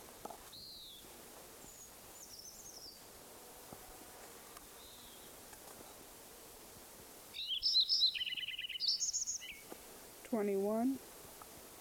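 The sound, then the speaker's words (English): A Lincoln's sparrow sings in a farm meadow: faint high chirps, then a brighter burst of rapid buzzy trills followed by a short run of descending notes, over a low hiss. “Lincoln Sparrow number one at Metcalf Farm Meadow continued.”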